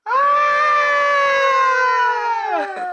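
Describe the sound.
A voice imitates a rock singer's scream from a song: one loud, sustained yell held for nearly three seconds, sagging in pitch and breaking off at the end.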